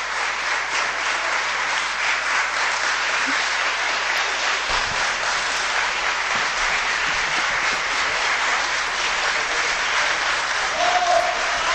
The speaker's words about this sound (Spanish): Pues ya ven, un aplauso como creo que no se haya producido nunca en un pleno del ayuntamiento.